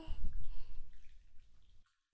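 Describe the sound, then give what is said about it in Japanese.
Shower water is sprayed over a towel draped across a body, making a soft hissing, splashing rush. It starts strong, then gradually thins and fades before cutting to silence. “その上からシャワーかけていきまちからね。”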